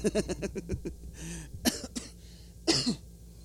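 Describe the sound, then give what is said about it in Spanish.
Coughing from a person with a nagging cough of nearly two weeks: a rapid run of short, hacking bursts, then a few harsher separate coughs after pauses, moderately loud. “He estado como lidiando con esta tos desde hace ya, pues ya para casi 2 semanas.”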